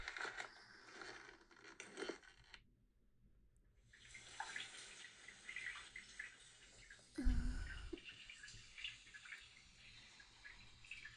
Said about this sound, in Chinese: 我已经为你放好水了